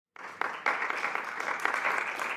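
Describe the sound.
Audience applause welcoming a guest bursts in after a brief silence, then settles into dense, steady clapping that holds to the end.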